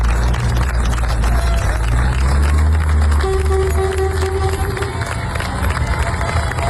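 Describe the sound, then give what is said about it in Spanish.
Townspeople in Niebla cheer a farewell to military emergency crews who fought the largest forest fire in Andalusia's history. The crowd noise is a loud, continuous roar that stays busy and dense from start to finish. “Este es el sonido de la despedida del pueblo de Niebla, los efectivos de la UME que han estado trabajando día y noche hasta dar por estabilizado el que ya es el mayor incendio forestal de la historia de Andalucía.”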